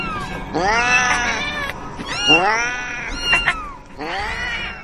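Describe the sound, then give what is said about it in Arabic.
Several cats meowing in long, wailing, caterwaul-like cries that rise and fall in pitch. The loud calls come in a few overlapping stretches with short gaps between them. “الكوم اللي معمول للأسود ده كان عبارة عن قطط. قطط نايمة ما بتتحركش. نايمة على جنبها لكنها عمالة تطلع الأصوات.”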